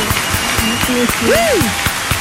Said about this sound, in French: Et en plus, double applaudissement